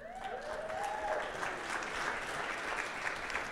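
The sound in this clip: An audience applauds to welcome an academic expert onto the stage at a community talk on philanthropy, with dense, even clapping that continues steadily throughout at a modest level.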